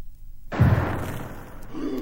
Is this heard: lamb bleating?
no